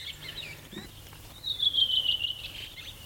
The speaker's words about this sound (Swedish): Och sen kommer det litet björktrast, krax efteråt. Och så sitter en annan han och sjunger en bit bort och svarar.